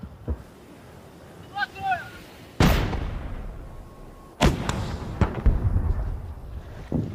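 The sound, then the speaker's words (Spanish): Heavy weapons and artillery fire from enemy troops during an advance toward Kherson: a few sharp, loud blasts, each trailing into a long rumbling decay, with smaller cracks following. “Los orcos están disparando con todo su arsenal.”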